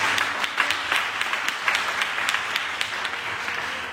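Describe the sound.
An audience applauds to acclaim the word of the Lord during a French-language sermon. Moderate, steady clapping runs for about four seconds, with individual sharp claps standing out from the wash.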